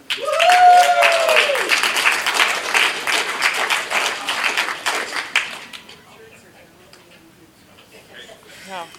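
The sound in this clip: Audience applause welcomes a speaker at a recovery meeting, a voice over its start and dense clapping for about five seconds, then fading into quiet with faint talk afterward.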